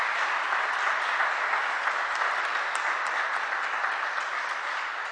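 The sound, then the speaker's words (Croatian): Audience applause at a church gathering, a dense, steady wash of many hands clapping together with no break. It stays loud throughout and eases off slightly toward the end. “Evo još jednom aplauz za Saru.”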